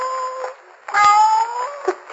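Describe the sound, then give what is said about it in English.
A cat trapped in a sealed wine vat, nearly suffocated, meows in a few loud, tonal, drawn-out cries. A short pause follows the first, and the longest call comes in the middle. The calls are clear, with no talking over them. “The cat. Yes, almost suffocated by the looks of it.”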